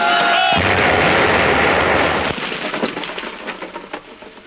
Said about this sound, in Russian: Партизаны бросают в них гранаты. Взрыв.